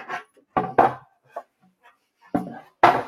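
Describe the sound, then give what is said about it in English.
A board being flipped over gives several sharp, hollow knocks and clatters at uneven intervals, with quiet pauses between them. “let me flip this board over”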